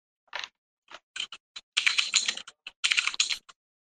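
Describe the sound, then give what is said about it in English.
Typing on a computer keyboard: a few isolated key clicks, then two dense, rapid flurries of keystrokes with brief pauses between them. No voices. “I'm just going to type all the three-letter fucking words I know.”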